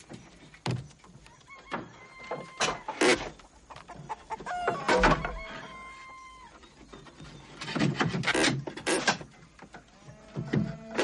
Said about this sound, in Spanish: sale a jugar con las gallinas